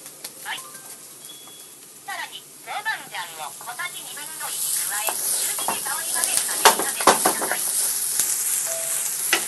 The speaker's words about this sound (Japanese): 中火で香りが出るまで炒めるんだそうですよ。